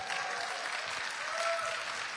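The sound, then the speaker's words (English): A church audience at a service gives a pastor a warm round of applause. Dense, even clapping from many people holds at a steady moderate level from start to finish. “Can we give Pastor Lynn a big hand clap?”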